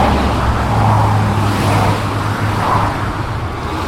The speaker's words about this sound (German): Wir haben hier ein paar Sekunden Lärm bei einer Autobahn ohne Lärmschutzwand. Das tönt so.